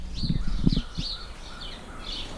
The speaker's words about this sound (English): We have a lot of house sparrows around here.